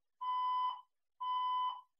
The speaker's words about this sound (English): I mean, I start talking about romance, the fire alarm goes off.